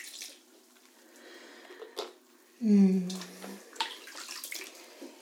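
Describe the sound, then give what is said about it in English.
Bath water splashes and pours as soap is rinsed off, soft sloshing that swells into one louder gush midway, with a voice talking over it. “Well, why don't we? Wash away all of that soap.”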